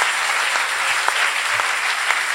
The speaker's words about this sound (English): You can clap those hands. Come on now.